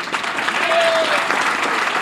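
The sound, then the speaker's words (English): A crowd applauds at a New York City mayoral event: a loud, dense, steady wash of clapping sustained through the whole clip, with a brief faint whistle-like tone early on. “The applause lasted for quite a while.”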